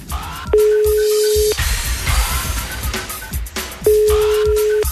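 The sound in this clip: A telephone call rings out as it is dialed: two long, steady ringback tones, each about a second long and spaced roughly three seconds apart, sound over a low background rumble.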